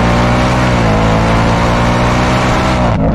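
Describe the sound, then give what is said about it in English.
A Ford Mustang fitted with a Whipple supercharger and stock exhaust runs loud and continuous, its deep, dense engine roar holding steady with slight rises before cutting off abruptly near the end. “When was the last time you heard a stock exhaust Mustang sound like this? This is that Whipple 24.”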